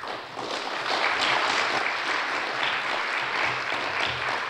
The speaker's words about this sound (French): Donc je vous demande d'applaudir très fort.